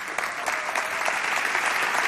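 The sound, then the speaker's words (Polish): Brisk audience applause at a music awards ceremony after a live performance, many quick overlapping claps forming a dense, lively patter at a moderate level throughout. “To raz jeszcze oklaski dla nich.”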